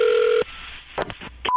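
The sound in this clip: Telephone keypad dialing tones for a prank call: a steady two-note tone holds, then a few short, separate tone bursts follow, ending as a clean higher beep begins.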